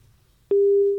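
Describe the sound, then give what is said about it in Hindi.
Telephone busy tone after a phone call is cut off: a single steady, even-pitched tone begins halfway through and holds loud to the end. “जी, लगता है phone call cut चुकी है।”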